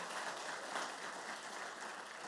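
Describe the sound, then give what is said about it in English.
Faint, steady applause from an audience at a children's church showcase, given for a child after a lesson. A continuous, even wash of clapping holds at a low level for the whole stretch, with no voices rising above it. “y'all give him a round of applause”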